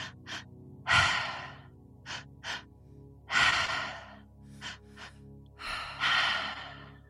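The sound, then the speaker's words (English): Voice demonstrating a three-part breath into the chest and belly and out through the mouth: short sniffing inhales lead into a long, loud breathy exhale, repeated over three cycles. “We're going to do a three-part breath. It's called Triactive. So we're going to breathe into our chest, into our belly, and out through our mouth, all through our mouth. So it sounds like this.”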